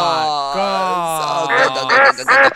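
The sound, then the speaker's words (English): Ducks or geese quacking: a few nasal, honking calls with a buzzy tone, loudest and choppiest toward the end. “Oh, God, the ducks are back. The geese. The goose and the gander.”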